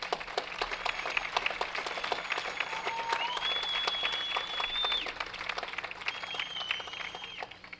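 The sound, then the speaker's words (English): Sustained audience applause for a performer at a live show: dense, steady clapping from a large crowd that holds at an even level throughout. “Let's give him another hand.”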